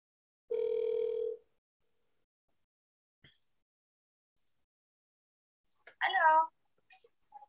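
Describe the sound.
An outgoing telephone call rings once with a steady buzzing tone lasting just under a second. A few faint clicks follow, then a voice answers briefly.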